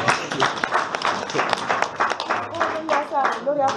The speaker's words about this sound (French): Applaudissons pour le Seigneur.